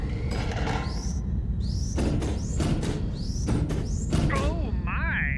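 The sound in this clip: Rivet gun shooting rivets through a steel hull in a science-fiction story: many rapid, sharp mechanical bangs over a dense background, with whistling chirps that sweep up and down in pitch.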